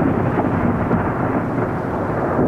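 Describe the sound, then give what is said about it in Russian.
Rolling thunder following a dry crack of lightning: a loud, dense low rumble fills the whole clip, steady and sustained without pauses or a distinct sharp onset. “Вдруг с сухим треском сверкнула молния, и последовал такой раскат грома, что, казалось, само небо должно было расколоться пополам.”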